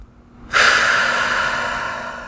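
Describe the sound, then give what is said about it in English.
A deep breath taken during a relaxation exercise: a single long, airy rush of air that starts suddenly, holds steady and slowly fades, heard alone with no talking. “Deep breath.”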